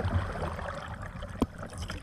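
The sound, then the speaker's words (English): A canoe is paddled upstream on a river, with soft lapping and trickling water on a mild breezy morning. One brief, distinct paddle splash stands out partway through the quiet, steady water sounds. “I paddle upstream, mid-morning mild breeze.”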